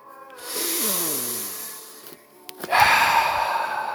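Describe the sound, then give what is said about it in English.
Deep breathing led in a church service: a sighing exhale with a falling voiced tone, then a louder, noisy rush of breath that runs to the end. “let's take a deep breath.”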